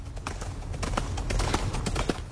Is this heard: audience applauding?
no